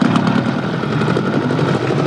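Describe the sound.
An engine being started runs with a loud, rough drone and rapid, even pulsing that holds steady throughout.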